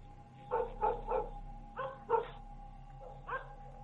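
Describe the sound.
A yellow dog barks through a fence at a noisy visitor, giving about six short, sharp barks in two quick clusters and then one more. The barks are fairly faint, and no one speaks.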